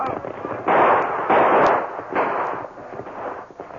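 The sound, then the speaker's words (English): Gunfire from a hilltop: a few heavy, rough bursts of shots that run into one another, loud and broad, over a steady dull background. “Then the masked man and Tonto reopened fire. Now they've got horses and guns. Yes, and they've seen the flashes of our guns. They know the shots came from this hill.”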